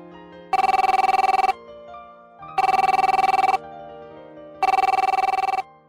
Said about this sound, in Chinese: 响了三声，我同事才接电话。